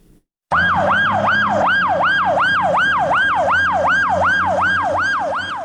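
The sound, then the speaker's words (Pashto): An ambulance siren wails outside an emergency hospital in Lashkar Gah as the wounded are brought in. It is loud and continuous, with rapid, regular rising and falling sweeps that hold steady throughout. “د لشکرګاه د ایمرجنسی روغتون مخې ته د څلورم امبولانس ته چې هر یوې په نوبت ټپیان راوړي.”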